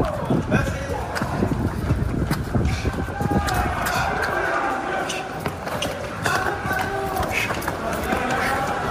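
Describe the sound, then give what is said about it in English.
Running footsteps of about 200 waiters racing through the streets of Paris, a dense stream of quick steps over a steady crowd noise. “Now, that's the sound of 200 Parisian waiters sprinting through the streets of Paris.”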